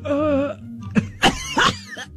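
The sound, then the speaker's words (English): Coughing from a person with watering eyes during a deep nasal swab test: a short voiced sound, then a few sharp, breathy bursts spaced unevenly. “I coughed. That was not a sneeze.”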